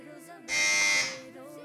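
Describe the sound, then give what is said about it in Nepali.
A quiz competition buzzer sounds once, a harsh, bright electronic tone lasting under a second, standing out against quieter background sound. “The read school जरा buzzer check कीजिए।”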